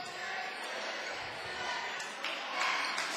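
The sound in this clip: A basketball is dribbled near the center circle during a high school boys' game. Faint, repeated bounces sound under a steady murmur of crowd noise and talking voices.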